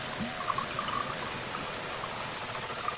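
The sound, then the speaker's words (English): Suntory sparkling water is poured into a whiskey drink with lemon juice, a steady, faint stream of liquid with light fizzing that continues for the whole stretch with no voices. “and then some Suntory sparkling water”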